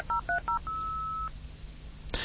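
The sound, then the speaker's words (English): A computer modem dials a phone call on a line that also carries DSL. It sounds three quick, dual-pitched touch-tone beeps, then a longer steady tone, and ends with a brief burst of hiss. “You can hear that it is now making the call.”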